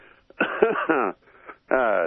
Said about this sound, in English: excuse my cough. I'm a smoker